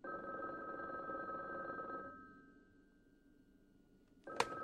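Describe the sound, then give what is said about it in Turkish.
A telephone ringing: one sustained electronic ring of about two seconds fades out, then a brief quiet stretch ends in a sharp click. “O telefonu cevap ver de.”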